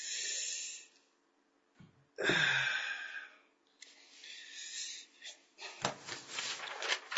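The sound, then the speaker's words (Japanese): Deep breathing during a group lesson: a few long, breathy inhales and exhales, each a soft rushing hiss that swells and fades, with quiet pauses between them. “はい、深呼吸。”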